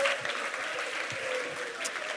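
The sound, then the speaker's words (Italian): Audience applause at a FameLab science-talk competition, a dense, steady clapping at an even level from start to finish. “Ciao Kevin, ancora un applauso.”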